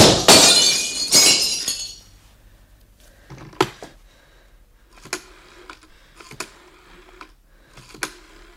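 Window glass breaks in two loud crashes in quick succession, then sharp, sparse clinks of falling shards ring out over the following seconds.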